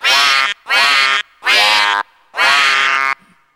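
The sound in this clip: A duck quacks four times, each call a loud, nasal, buzzy honk separated by short pauses, the last quack drawn out longest.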